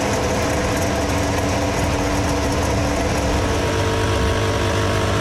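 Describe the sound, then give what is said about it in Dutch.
Formula 1 engines idle before a race, a loud, dense and unbroken mechanical drone with a low rumble and a steady buzz above it, with no talking. “geluid van Formule 1 motoren die stationair draaien.”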